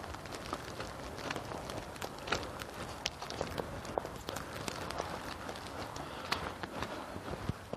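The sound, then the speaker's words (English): Footsteps of a person walking, a long run of faint, steady steps with no voices. “I'm glad I didn't wait any longer to make this walk, I'll tell you.”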